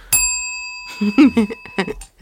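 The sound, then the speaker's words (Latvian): A small bell struck once, its bright ringing tone sustaining and slowly fading for about two seconds while people start talking over it. “Tas bija tikai tests, mums ir zvaniņš.”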